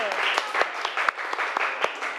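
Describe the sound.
Classroom applause after a pupil correctly reads an English vocabulary word, a continuous wash of clapping with sharper, evenly spaced claps standing out and voices mixed in.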